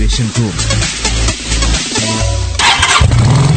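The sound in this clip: A motorcycle engine cranks, catches and revs in a motorcycle battery advertisement. The bursts of engine noise are loud and punchy.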